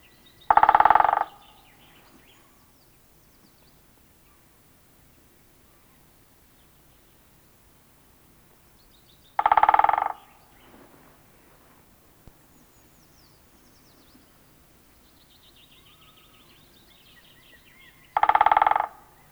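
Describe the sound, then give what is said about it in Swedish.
Great spotted woodpecker calls: three short, sharp single notes spaced roughly nine seconds apart, with near silence between them. “nu följer större hackspett.”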